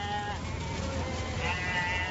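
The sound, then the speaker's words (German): Sheep in a herd bleat along a road beside a river floodplain, their wavering calls overlapping into a steady, dense chorus throughout. “Auf der Straße, die neben der Flussaue des Pjansch verläuft, ziehen Schafherden entlang”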